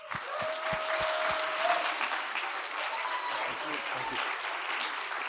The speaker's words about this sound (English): I want you to give a really warm welcome to Jim Hall as he comes and shares tonight.